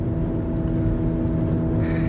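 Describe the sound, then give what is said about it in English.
Steady road noise inside a moving car on the drive home from work: a continuous low engine and tyre hum with even loudness and no distinct events. “Y'all know I'm driving driving home from work.”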